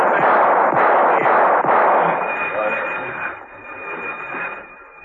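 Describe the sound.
Warning gunshots ring out in a passageway as a few sharp cracks in quick succession over a dense, noisy din. The din then slowly fades while a steady high whine lingers.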